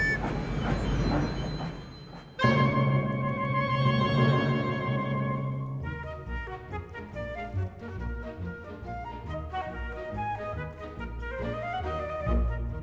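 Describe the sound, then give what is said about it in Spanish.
A train: a noisy rumble, then sustained whistle-like tones, followed by a rhythmic clattering passage. “Súbete al tren. En la estación azul de los niños.”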